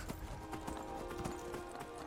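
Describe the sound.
Hooves clip-clop in a rapid, steady rhythm as a player rides the horse Shadowmare in a video game. The faint, regular hoof strikes continue throughout.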